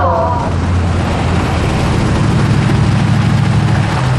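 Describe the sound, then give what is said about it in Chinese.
Engine of a Mercedes-Benz G-Class SUV, a loud, steady low rumble that runs throughout, with a voice heard briefly at the start. “哎，你们看那呀，大 G， 好像整个金海就这一辆哎。 谁的车？长征集团的。 还往我们这边走，”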